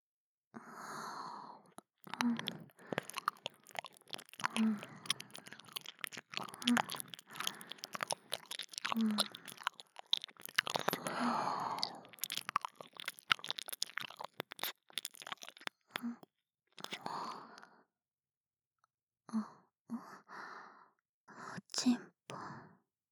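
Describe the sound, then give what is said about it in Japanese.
Close, crackly scratching and rustling of an ear being cleaned during the finishing touches, with many irregular small clicks and scrapes, and a soft voice speaking quietly at times. “耳掃除は人にやってもらった方がいいんですよ。自分では見えないですから。さあ仕上げしましょう。”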